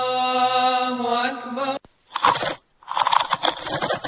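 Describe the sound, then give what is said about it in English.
Someone eats crunchy Frimax potato chips in two loud bursts of crisp, crackling crunching, separated by a short silence. “Mmm, Dad, these Frimax chips are so tasty.”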